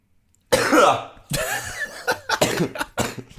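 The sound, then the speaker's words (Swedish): Harsh coughing from a person who is a bit ill: a loud first cough followed by a short run of several more sharp, bursting coughs, with no talking. “Det gör en bra story att vi hör att du hostar totalt.”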